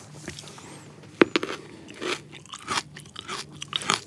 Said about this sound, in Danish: hvis jeg lige må smage her, ja, du får lige lidt, her, lidt syrlig kant, hvor, hvor ripsen er lidt mere sødlig